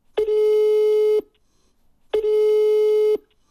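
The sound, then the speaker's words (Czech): Telephone line tone while a call is being placed: two long, steady, mid-pitched beeps of about one second each, separated by a short silence and heard alone. “Takže volám Vaškovi Šandovi.”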